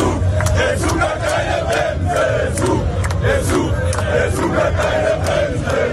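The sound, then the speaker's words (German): German football fans celebrating on Times Square in New York, a dense crowd chanting and shouting together in a loud, continuous roar with rhythmic surges. “Die deutschen Fans sind auch schon ganz entspannt. Sie haben auf dem Times Square in New York ordentlich gefeiert und wir hören da mal rein.”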